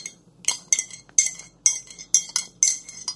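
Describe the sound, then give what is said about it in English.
A spoon stirs tea in a porcelain cup, knocking the rim in a run of bright, high clinks at a fairly regular pace, each ringing briefly before the next, with no talk. “I really like this sound. The sound of stirring? Yeah, like a spoon on a porcelain cup.”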